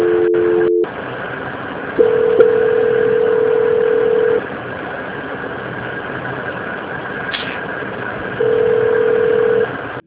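Telephone line tones sound during a call transfer: a few long, steady, mid-pitched beeps separated by pauses, over a constant low hum.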